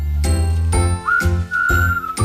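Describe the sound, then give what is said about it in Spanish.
Incoming phone call ringing: a loud, bright electronic ringtone that repeats a short tonal pattern in steady pulses, with no talk over it. “Hay una llamada. ¿Quién será?”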